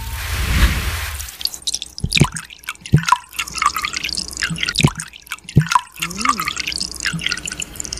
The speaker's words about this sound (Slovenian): Mleko, vlivanje mleka. To vlivanje mleka!